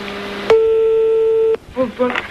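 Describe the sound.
A telephone ringback tone while placing a prank phone call: one steady, unbroken mid-pitched tone lasting about a second, then a voice speaking.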